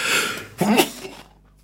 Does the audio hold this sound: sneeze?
yes